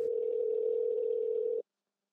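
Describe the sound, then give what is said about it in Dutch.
A single steady telephone tone, even and unbroken for about a second and a half before it cuts off into silence, heard while placing a call from Amsterdam. “Ik kan haar bellen.”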